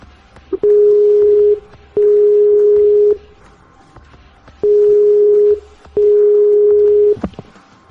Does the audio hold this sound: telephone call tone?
yes